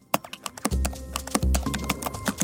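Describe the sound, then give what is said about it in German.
Keys clatter as a search term is pecked into a computer keyboard with a beak. Many quick, irregular clicks come in bursts over a low, humming background. “Okay, ich tippe, also beziehungsweise ich schnabele mal in die Suchmaschine ein Maasai-Sprung.”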